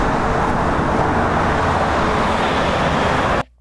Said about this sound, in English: So, this is the traffic you can listen to if you're standing on a bridge above a highway.